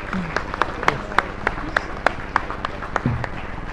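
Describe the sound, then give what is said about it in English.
Audience applause welcomes teachers at a church gathering: a run of sharp, scattered claps spread through the whole stretch, with voices murmuring underneath and a brief voice near the end. “All right. Thanks, guys. Let's give them a hand and welcome them.”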